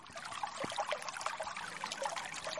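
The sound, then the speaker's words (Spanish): Offered drinks poured onto the ground at a well in an Andean offering ritual, a faint, continuous splashing trickle with small irregular spatters and no voices. “El agua purificadora se activa chayando el pozo con las bebidas ofrendadas, porque la tierra también tiene sed.”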